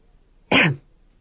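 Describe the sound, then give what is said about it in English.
A man gives a single short, loud cough, one harsh burst that stops abruptly and stands alone against near silence. “He coughed.”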